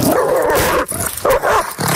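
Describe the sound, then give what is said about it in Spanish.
Loud dog barking and yelping as a dog bites a person, heard in dense, nearly continuous bursts separated by a few brief dips. “Ese es el sonido de un perro mordiendo a una persona.”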